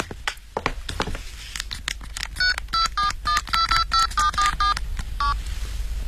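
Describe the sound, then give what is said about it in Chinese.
A telephone number being dialed on a touch-tone phone: clicks and handling noise first, then a quick run of many short, clear beeping tones, with no talking. “我给我们老总打个电话，请示一下。”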